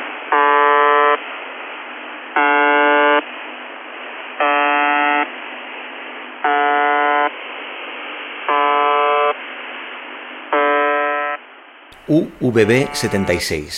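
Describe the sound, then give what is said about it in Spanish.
Shortwave radio station buzzer signal: six harsh, harmonic buzzing tones of equal length repeat at about two-second intervals, each loud and flat in pitch. A short burst of a different, wavering sound follows at the end. “UVB-76, también conocida como The Buzzer o el zumbador, porque hace, sí, hace pi, pi, pi, pi cada dos segundos.”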